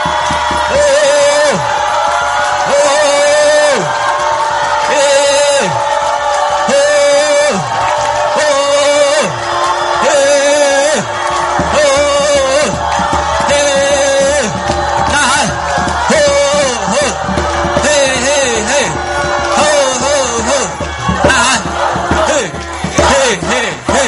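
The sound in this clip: Congregation shouting together during a Chinese-language revival worship service: a loud, dense mass of raised voices calls and chants in unison without pause, with sustained shouted tones rising over a constant roar of the crowd.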